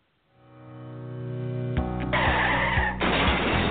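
Car tires screech in an auto accident: a squeal swells up over about a second and a half, then breaks into harsh, noisy grinding bursts that stay loud to the end.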